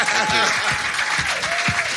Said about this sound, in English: give a kind of real Islington-shaped, vast round of applause for the great Chris Salovich.